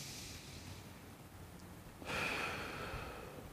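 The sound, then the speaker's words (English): A single deep, audible breath, soft and airy, that starts suddenly partway through and then tapers off slowly, with no talking. “Everybody take a deep breath right now.”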